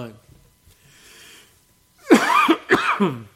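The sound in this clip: Loud, harsh coughs from a tickle in the throat come in a quick burst of a few after a quiet stretch holding only faint breathing.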